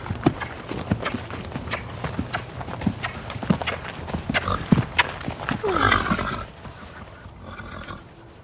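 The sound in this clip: A ridden mare gallops, her hoofbeats falling in a quick, rolling rhythm. The rider makes short kissing sounds in time with the stride, and the sound swells briefly before thinning out at the end.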